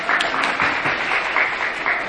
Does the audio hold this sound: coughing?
no